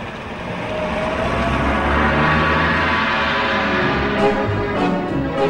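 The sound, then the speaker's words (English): A car engine rumbles as a small black cab pulls out of a car park behind a huge American saloon. The low, steady drone holds level throughout, with a few brief sharper accents near the end. “A little cabbie who has been observing them climbs into his black car and follows the huge American saloon out of the car park.”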